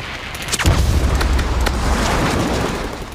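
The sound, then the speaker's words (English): Anti-aircraft fire from an aircraft carrier, the Yorktown, and her escort warships during a dive-bomber attack: a dense, continuous barrage of booming bursts over a deep rumble, loud throughout and easing slightly near the end. “Two more fall to the barrage of anti-aircraft fire thrown up by the Yorktown and her escorts.”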